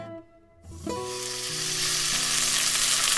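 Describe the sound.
Steak sizzles as it fries in a pan, the hiss starting after a brief pause and building steadily. Soft sustained musical tones play underneath.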